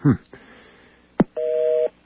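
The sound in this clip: A telephone number is dialed, followed by a busy signal: a short burst, a sharp click, then a steady two-tone beep lasting about half a second.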